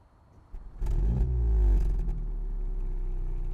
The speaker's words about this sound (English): you can see it's got quad tailpipes. And these sound very nice. So if we get the car started up,